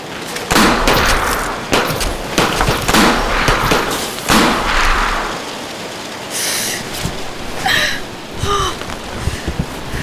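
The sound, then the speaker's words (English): Gunshots crack out, a few loud, sharp bursts packed into the first seconds, then the noise drops away to quieter, scattered sounds. “Fucking bitch, you shot me! Oops, dropped your bullets. Not as easy to reload as mine.”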